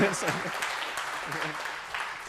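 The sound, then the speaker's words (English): Applause for a helper at an event: a brief, steady round of clapping forms a dense hiss throughout while a person talks over it. “Too much applause, too much.”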